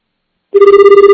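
A telephone rings on an overseas call, loud and alone after half a second of silence: a steady, bright electronic ring tone that pulses rapidly and evenly until the end.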